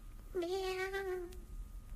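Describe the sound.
A kitten gives a single drawn-out meow lasting about a second, steady in pitch and then fading off, heard alone without voices.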